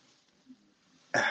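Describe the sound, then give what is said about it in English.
Someone wiping their nose gives a short, loud sniff that bursts in abruptly at the end after near silence. “Excuse me, wipe my nose.”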